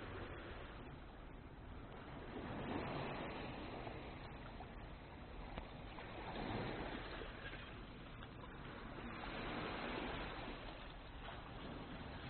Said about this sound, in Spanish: Escucho el sonido del mar, conecto con él.